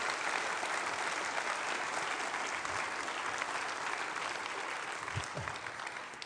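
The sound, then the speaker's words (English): An audience claps to welcome a music pastor. Sustained, even applause fills the whole stretch and thins slightly near the end. “Let's give Tom a good hand of welcome.”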